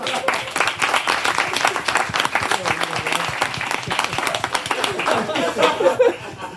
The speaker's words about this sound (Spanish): Un aplauso.